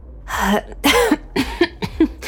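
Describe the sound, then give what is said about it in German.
A voice performs a series of rough coughs that sound like throat clearing, several short bursts spaced apart, loud and alone. “Das konnte ich allerdings gerade noch rechtzeitig mit einem Huster überspielen.”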